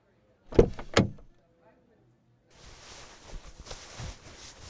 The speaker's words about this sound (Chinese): 来，我帮您把门打开。